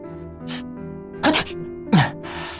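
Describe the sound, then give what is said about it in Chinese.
Two short, sharp sneezes from a man, about half a second apart, over soft steady background tones. “蓝河又打了个喷嚏”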